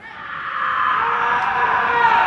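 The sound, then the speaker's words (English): Columbia University students in Morningside Heights let out the Primal Scream at midnight on the Sunday of finals week. The massed yelling swells over the first half second, then holds as a loud, steady roar. “It's called Primal Scream, and like the return of the swallows to Capistrano each spring, it happens like clockwork. In this case, at midnight, the Sunday night of finals week, at Columbia University in Morningside Heights.”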